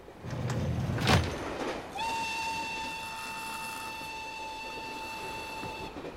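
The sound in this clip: A train running rumbles steadily with rattling noise. After a brief louder burst, a long train whistle sounds and holds a steady, harmonic-rich tone for about four seconds.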